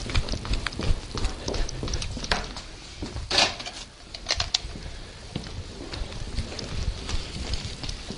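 A man runs to another room to fetch pens, his hurried footfalls forming many quick, uneven taps over a constant low background noise.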